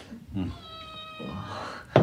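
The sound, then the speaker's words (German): A cat meows in one drawn-out, tonal call, with murmuring voices around it. “Süße kleine Katze.”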